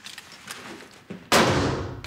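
A gunshot at a shooting range: one loud, sharp crack with a long decaying tail, preceded by a few faint clicks and a softer thump.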